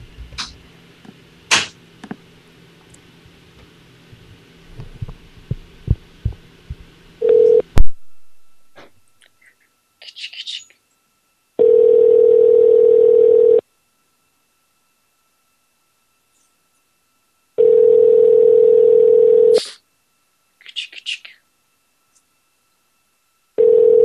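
Ringback tone on a telephone call being placed again: after scattered clicks and short beeps, a steady low tone sounds for about two seconds, then falls silent for several seconds and repeats.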